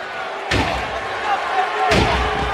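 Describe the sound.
A wrestler is slammed onto the ring by Kurt Angle's Angle Slam at a WWE SmackDown match, two heavy booming thuds over a loud, continuous crowd roar.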